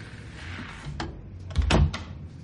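A door closes as someone comes in: a soft click, then a louder, dull low thud that fades over a faint background hum.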